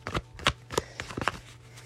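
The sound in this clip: Tarot cards being shuffled make a quick series of crisp riffling and snapping bursts. They come at an irregular rhythm and are fairly faint, with no talking.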